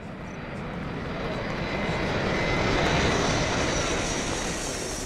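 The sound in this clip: An airplane in flight gives a steady, loud engine roar that swells slightly toward the middle and then eases a little, with no voices.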